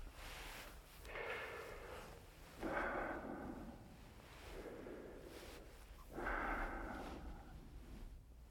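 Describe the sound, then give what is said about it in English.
A patient breathes deeply on request during a baseline check, drawing several slow, soft, airy breaths in a steady rise-and-fall rhythm, each lasting about a second, with quiet gaps between them. “I'd like you to take some nice, deep breaths for me.”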